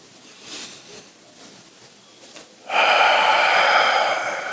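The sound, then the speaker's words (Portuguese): Deep breathing during a guided therapeutic breathing exercise, with air drawn in and pushed out through the mouth: soft breathy sounds give way to a long, loud, rushing exhale that holds steady and then tapers slightly. “Inspira, inspira. Puxa do, do, do umbigo até a garganta e solta pela boca.”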